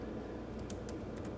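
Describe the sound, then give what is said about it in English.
Faint keyboard clicks as someone types a web search about mass shootings by country. A few scattered keystrokes sit over a steady background hiss, and the last one is a little louder. “I'm going to type in mass shootings by country and just see where we're at in 2023.”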